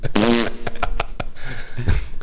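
A fart sounds out as a buzzy, raspy tonal burst, followed by a string of rough, sputtering bursts that run to the end.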